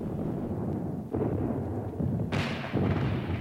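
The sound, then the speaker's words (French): Heavy-calibre shells fired by the cruiser Mirabeau during the 1917 bombardment of Athens give a few deep, thudding booms over a continuous low rumble. “Ce n'est qu'à 5 heures du soir que le croiseur Mirabeau envoie quelques obus de gros calibre.”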